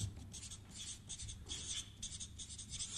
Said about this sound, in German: Ich schreibe mal Angst hin